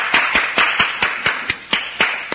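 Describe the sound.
A single person claps alone at the end of a speech, a steady, even series of sharp, loud claps at a moderate pace with nothing else heard.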